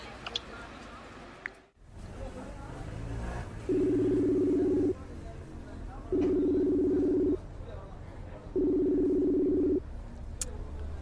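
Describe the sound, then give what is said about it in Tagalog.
A telephone call rings out as someone phones another person: three long, even ringback tones repeat at regular intervals over low background noise, with a brief click before the first. “Nasaan na ba kasi yung buyer na yun? Matawagan na nga.”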